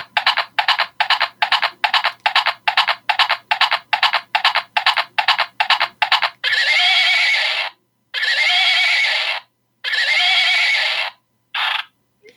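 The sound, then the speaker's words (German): A pink unicorn hobby horse toy, a stick with a unicorn head, plays electronic sounds when its ear is pressed. Many quick galloping hoof clicks come first, then a few long, loud neighing whinnies with brief gaps between them. “Und zwar ist es ein Steckeneinhorn in rosa. Es besteht in erster Linie aus so einem Stock und so einem Einhornkopf. Und es hat eine ganz tolle Funktion. Wenn man das Ohr drückt, dann macht es Geräusche.”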